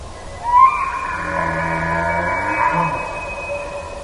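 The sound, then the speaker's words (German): A rutting wapiti bull bugles in Yellowstone: a high, whistling call that climbs sharply at the onset, then holds a long, reedy tone rich in harmonics for about three seconds. “Das ist der Ruf eines brünftigen Wapiti, aufgenommen im Yellowstone Nationalpark.”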